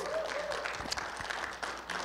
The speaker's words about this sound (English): Man, and come on, give him a hand clap and a welcome.